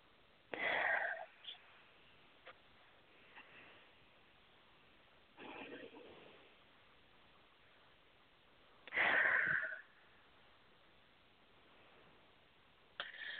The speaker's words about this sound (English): And take three nice deep breaths.